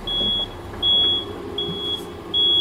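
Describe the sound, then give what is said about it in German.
Vehicle-style reversing beep: four high, pure electronic tones repeat at an even pace with short gaps, over a low rumbling background. “ich habe gedacht, du fährst jetzt rückwärts raus aus dieser Sackgasse. Nee, ich piep jetzt tatsächlich.”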